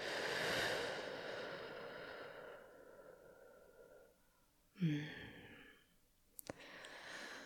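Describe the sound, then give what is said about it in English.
An audible exhale through slightly pursed lips: a long, soft, breathy rush of air that fades over a couple of seconds, followed by quiet and a faint click. “And then exhale with your mouth pursed just a little, like an audible exhale, like this.”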